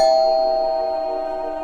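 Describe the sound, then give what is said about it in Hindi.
A doorbell rings once as visitors arrive at a house: a single steady bell tone that fades slowly over about two seconds. “घंटी बजाई।”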